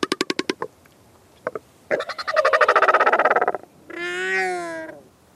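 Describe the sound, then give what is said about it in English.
A Southern Royal Albatross calls: a quick run of clattering pulses, a couple of short bursts, then a long guttural, throbbing bray. It ends in a drawn-out, nasal moan that rises and falls. “Let's hear the Southern Royal Albatross for ourselves.”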